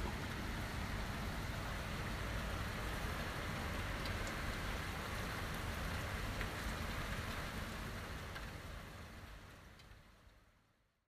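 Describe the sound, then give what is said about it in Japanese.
Steady rain recorded on an iPhone microphone, a dense and even wash of patter and hiss that holds at one level and then fades out at the end, with no voices. “iPhone ならではだねやっぱりマイク固定マイクだったらね雨音は拾えないからね”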